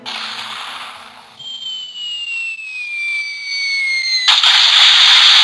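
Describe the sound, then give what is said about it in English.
A rocket-launch sound effect opens on a rumble, then a whistling tone glides steadily downward in pitch before a loud, bright, hissing blast bursts in and sustains to the end. “normally that's a cannonball, but because we just watched NASA launch a rocket into space, that's the rocket”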